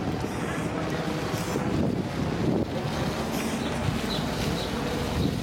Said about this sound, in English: Very windy on that street.